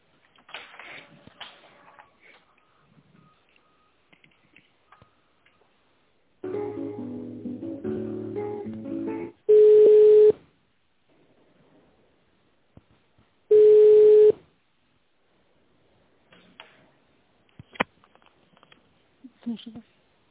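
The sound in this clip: Telephone ringback tones sound on a business call while it is being transferred: two loud, steady, high-pitched beeps separated by a pause, with faint line noise and a stretch of muffled sound before them.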